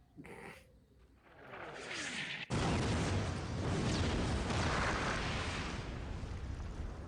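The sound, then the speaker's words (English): Missiles strike and explode, a building rush leading into a sudden, loud blast partway through. A long, dense, rumbling roar follows and holds at high volume, easing only slightly toward the end. “Oh, here come the missiles.”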